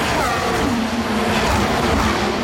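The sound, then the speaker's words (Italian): Formula 1 single-seater cars racing on a street circuit during the final lap: a dense, continuous, loud roar of engine noise with a wavering tone running underneath throughout. “Adesso siamo all'ultimo giro qui, siamo all'ultimo giro, sentiamo per guardare correre le monoposto di Formula 1”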